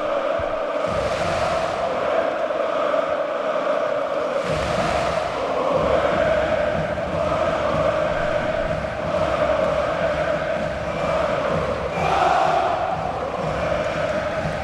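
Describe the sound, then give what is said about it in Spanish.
Basketball arena crowd roars in celebration of Bilbao Basket winning the European title, a dense sustained wall of cheering that swells and surges in several loud waves. “Sí, se van a esa esquina. Se han ido a esa esquina. Sí. Están celebrando con el público. Merece la pena escucharlo, ¿eh?”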